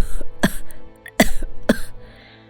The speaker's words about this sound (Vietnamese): Mẹ làm sao thế? Mẹ ho hả?